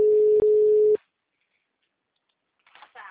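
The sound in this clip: A telephone busy signal: a steady, low, buzzing tone that holds for about a second with one brief break, then cuts to silence before a faint voice starts at the very end.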